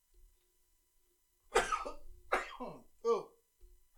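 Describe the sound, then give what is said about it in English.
A sudden loud sneeze breaks a near-silent start, followed by a couple of shorter breathy and voiced bursts before it fades back to quiet. “That was a sneeze. I couldn't mute my mic fast enough”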